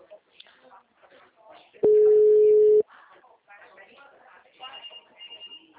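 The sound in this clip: A telephone line tone after a dropped call: one loud, steady, single-pitch beep lasting about a second cuts in between stretches of conversation, with people talking before and after it.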